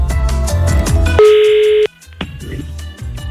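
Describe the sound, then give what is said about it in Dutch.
A telephone ringback tone sounds as a call is placed from a radio studio: one steady, loud, mid-pitched tone lasting well under a second that ends abruptly. “Dus ik ga eventjes iemand bellen.”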